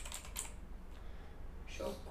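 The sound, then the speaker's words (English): Faint typing on a computer keyboard: soft, scattered clicks come near the start and again toward the end, all at low level. “Should I type the whole thing? Yeah, just do it.”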